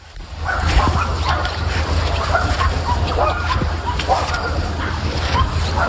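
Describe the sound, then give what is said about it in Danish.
Many dogs barking, yipping and whimpering at a large dog activity centre beside a lake, the overlapping calls rising and falling continuously over a steady low hum. “Det her, det er lyden af hunde fra Danmarks største hundeaktivitetscenter, DKK Ringsted”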